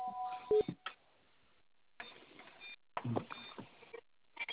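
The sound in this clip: Touch-tone dialing beeps as a phone call is placed to set up a conference line: a few short electronic tones near the start, followed by quieter clicks and muffled handling noise.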